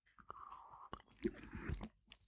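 Faint mouth sounds of someone sipping and swallowing an almond milk drink: a few soft wet clicks and a short gulp in near silence, without talk.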